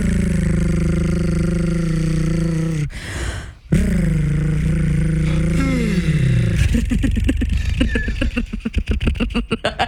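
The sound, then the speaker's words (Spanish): An engine revving: a steady buzzing harmonic drone breaks off briefly, returns and slides down in pitch, then turns into rapid sputtering pulses toward the end. “El motor.”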